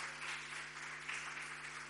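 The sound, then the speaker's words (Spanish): Audience applause greets a reader at a live reading event. Many hands clap in a dense, even patter that runs steadily through the whole clip with a slight swell midway, and no voices sound over it. “Un aplauso para ella.”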